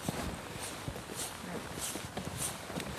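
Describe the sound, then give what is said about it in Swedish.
Light footsteps on a wet, slippery rock slab in heavy rain at the Bohuslän seafarer rock carvings, many soft steps at a steady pace beneath a constant hiss of falling rain. “Lätta steg.”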